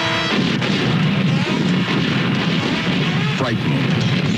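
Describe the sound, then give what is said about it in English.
A massive explosion blasts the moon out of Earth orbit. Sustained, loud booming roar that stays dense and rumbling throughout, with no pause. “blasted out of Earth orbit, destined to journey forever, deeper and deeper into the unknown, where human extinction on Moon Base Alpha”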